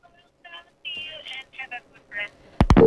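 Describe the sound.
On a radio call-in line, a telephone call cuts off: muffled, thin voices come down the line, then an abrupt loud click and a steady tone at the end.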